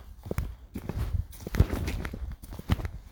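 Footsteps of someone walking in the woods, a steady series of low, soft thudding steps at an easy walking pace, with no voices over them.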